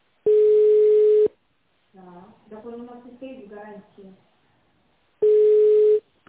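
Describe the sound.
Telephone ringback tone on an automated line during a call transfer: two long, steady, mid-pitched beeps about four seconds apart, with a short stretch of voice between them.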